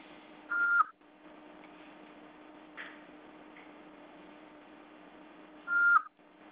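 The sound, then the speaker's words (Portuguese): Two short electronic beeps signal the start of voicemail recording. One sounds near the start and one near the end, both steady, mid-pitched and clear over a low, constant hiss and hum. “Após o sinal, fale o seu nome e deixe seu recado.”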